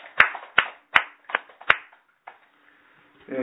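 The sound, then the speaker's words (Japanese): Sparse hand clapping for a 30th birthday at a church gathering: a handful of sharp, separate claps in a slow, uneven run that thins out, and then a voice begins at the end. “佐々木さんの お孫さん、原田渉君が30歳を迎えられましたので、盛大な拍手でお願い”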